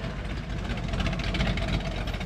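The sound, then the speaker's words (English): A drag racing car engine idles with a steady, rough rumble and a rapid uneven pulsing, continuous throughout. “All week long, we've been playing you this sound. This one-day only appearance brings drag racing royalty to the Bay Area.”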